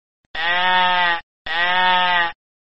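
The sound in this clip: A sheep bleats twice, two loud, even baas of almost a second each with a short pause between them.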